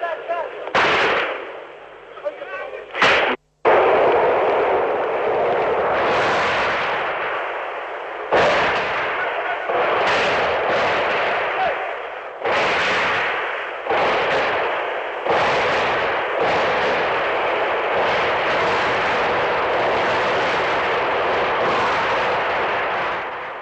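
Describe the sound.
Gunfire during the Timișoara uprising of December 1989: loud, sharp bursts break out again and again, with sudden onsets and sustained crackling volleys running for long stretches.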